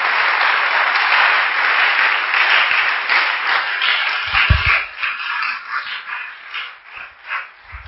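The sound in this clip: Applause and cheering from a church audience: a dense, loud, continuous clatter of clapping that gradually thins into separate uneven bursts toward the end.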